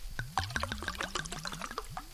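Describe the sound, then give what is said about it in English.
Wine being poured from a bottle into a glass, producing a quick, steady series of many soft glugs with a gurgling liquid rush, fairly faint and with no talk. “You just grab the tab and peel the tab. Peel the tab off. Yep. And then you can pull the closure out easily, and once you've poured yourself a glass of wine,”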